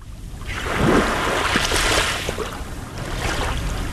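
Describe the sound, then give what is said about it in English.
Lake Michigan waves lap at a sandy beach in Shorewood, a suburb of Milwaukee, rising and falling in soft, broad washes of water over a steady hiss with a touch of wind. No voices are heard. “That is the sound of Atwater Beach in Milwaukee's North Shore suburb of Shorewood.”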